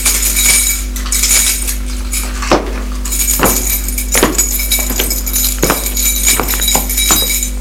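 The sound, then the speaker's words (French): A key locking a bedroom door: scattered metallic clinks and jingles over several seconds above a steady low electrical hum. “Elle ferme la chambre à clé.”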